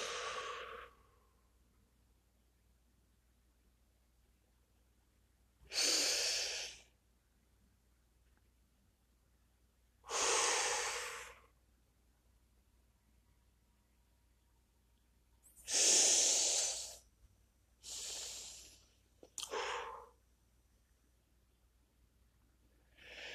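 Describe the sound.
Deep breaths in and out during a guided breathing exercise: several airy whooshes, each lasting about a second, separated by long quiet pauses, with no talk.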